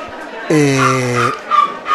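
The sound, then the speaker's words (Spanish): A dog whimpers in a drawn-out, whining moan lasting nearly a second, followed by two shorter, softer whimpering sounds. “Tenemos ahí un perrito que se está quejando, no sé por qué.”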